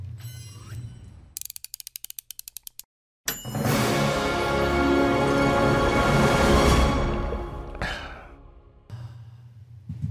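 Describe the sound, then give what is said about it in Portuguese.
Intro jingle of a daily running and coffee show: a quick ratcheting run of clicks, a brief silence, then a loud, full, sustained musical swell that holds for several seconds before dropping away. “Vamos lá, solta a vinheta”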